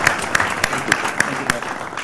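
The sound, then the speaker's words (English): Applause comes as thin, evenly spaced claps, about six sharp hits in a steady rhythm, over a low background noise. “So can we give Jenny a round of applause?”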